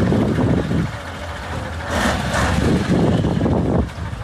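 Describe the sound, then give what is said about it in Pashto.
Large trucks rumble on a muddy, rutted highway between Uruzgan and Kandahar while helping smaller vehicles through the mud, producing a loud, steady engine drone that swells and eases. “دا د اورزګان او کندهار د لوی لارې پر سر غټ موټرونه دي چې د کوچني موټرو سره مرسته کوي ترڅو له لوړو او ژورو یې تیر کړي او له خټو یې راوځي.”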